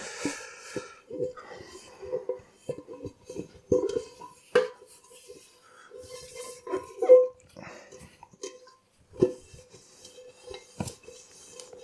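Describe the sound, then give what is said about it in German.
A large pot is handled while drying dishes, giving many irregular metallic clanks and knocks of varying loudness, with quieter clinks and rubbing in between. “jetzt habe ich hier den großen Topf zum Abtrocknen.”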